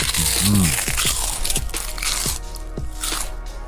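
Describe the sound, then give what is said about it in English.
Crunching of crisps cooked in coconut oil being eaten: many sharp, dry crunches and crackles in an uneven rhythm, fairly loud against a steady background. “Was that a good idea to eat my crisps in the middle of the advert?”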